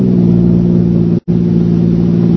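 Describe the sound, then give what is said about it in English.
A car engine comes around a curve from behind, a loud, steady, low droning hum with one brief cut midway. “The car had come around the curve behind us.”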